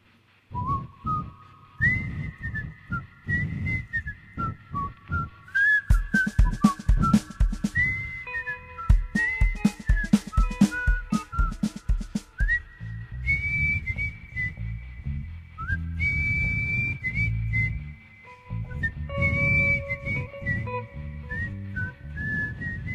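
A TV theme song melody whistled clearly and loudly, with a steady stream of bright notes jumping up and down in a lively tune, no voices.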